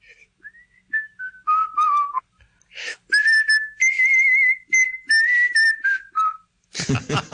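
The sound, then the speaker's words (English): A man whistles a tune that fills a few bars of a song in place of a guitar or sax solo. The melody is clear and bright, made of short phrases and longer held notes that slide and waver slightly, with brief gaps between the phrases. “just to sort of fill in a few bars, I did the old whistling”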